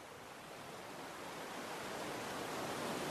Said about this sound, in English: The gentle lull of the waves mesmerizes you. You watch the ebb and flow of the tide for several peaceful moments.